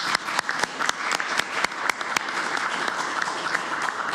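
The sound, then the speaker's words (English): Applause at a council meeting: a crowd clapping steadily, with a few sharp, louder claps early on, then a sustained wash of clapping at an even level. “I might ask for a round of applause.”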